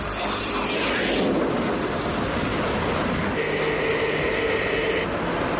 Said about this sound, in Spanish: Un avión más pequeño despega y va junto al avión de la misión.